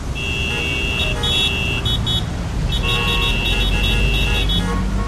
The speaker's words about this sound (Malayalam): എല്ലാവരും ഒരുമിച്ച് ഹോണടിക്കും